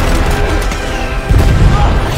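A film explosion roars as a dense, loud wall of rumbling noise, with a heavier, deeper boom surging partway through.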